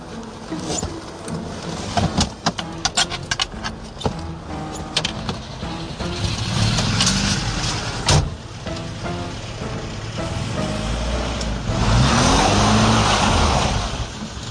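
A car engine hums and revs through a busy mix of knocks and patter, then swells into a steadier, louder roar toward the end as the car drives away.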